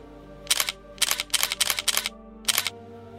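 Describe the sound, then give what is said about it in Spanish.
Camera shutter clicks from tourists taking photos: seven crisp, sharp bursts of clicking in an irregular rhythm. The middle ones come in a quick cluster, with a longer gap before the last. “Qué imagen tan icónica la de miles de turistas japoneses haciendo fotos, ¿verdad?”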